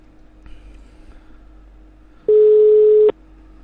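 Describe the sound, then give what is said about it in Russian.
A telephone line tone sounds while a call is being placed: one steady, low, loud beep lasting under a second, preceded by faint quiet line noise and small clicks. “Сейчас, короче, мы звоним.”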